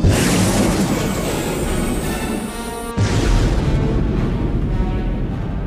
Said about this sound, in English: Fire control, lock the aft missile system onto that communications beacon. It's time we quiet that relay signal. Aft missile system, ready to fire. Fire!